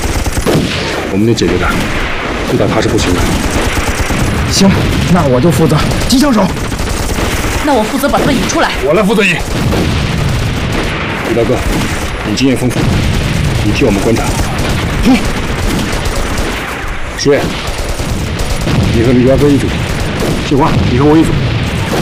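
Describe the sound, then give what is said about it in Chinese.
Heavy machine gun fire from enemy Japanese troops rattles in dense, unbroken bursts, mixed with booms and crashes. The barrage stays loud throughout, with voices heard through it. “鬼子重机枪火力太猛。”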